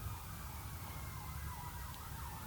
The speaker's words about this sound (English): If you hear the sirens in the background, there must be an accident somewhere.